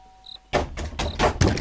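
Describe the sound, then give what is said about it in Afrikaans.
A door being pounded: a rapid run of several heavy, dull thuds, each a broad, booming knock, coming quickly one after another and loud against a quiet background. “Nou sy gaan my deur afbreek as sy so aangaan.”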